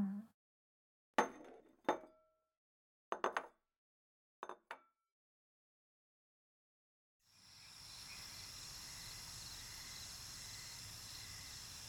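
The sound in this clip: Dishes and cutlery clink as someone goes back to eating a meal: a few sharp, bright taps come in small clusters, separated by silence, followed by a steady insect-like drone that continues to the end.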